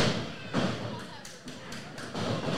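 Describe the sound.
A wrestler slammed down onto the ring mat in a sit-down slam during a match, a few dull, heavy thuds under loud, continuous crowd noise.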